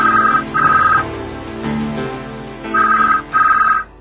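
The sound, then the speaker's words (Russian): A telephone rings in bright, electronic bursts. Two rings sound close together, then there is a pause, and two more follow in the same pattern, four rings in all. “И сразу раздался звонок.”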